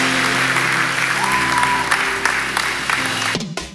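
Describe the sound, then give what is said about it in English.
Church audience applauding, a dense and continuous wash of many hands with a low sustained tone running beneath it. The applause holds steady before dropping away abruptly near the end. “Come on, would you give them a great hand? Give them a great hand.”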